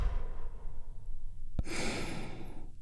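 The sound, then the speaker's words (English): A deep breath drawn in and let out, a soft airy rush that swells into a long breathy exhale, heard alone without talk. “let's all take a big, deep, healing breath right now. Here we go. And release.”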